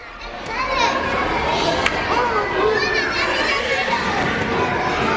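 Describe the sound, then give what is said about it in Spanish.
Children playing in a schoolyard: many overlapping young voices shout, call and chatter at once, forming a busy, steady wash of playground noise throughout. “Le pusieron un sonido de juegos en el patio”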